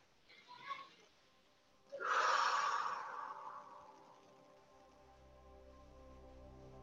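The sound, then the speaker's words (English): A deep breath in and out during a guided meditation: a soft, breathy rush that swells and then slowly fades. Faint steady tones sustain quietly underneath, and a lighter breath sound comes just before. “place your hand on your heart, and begin to breathe into your body.”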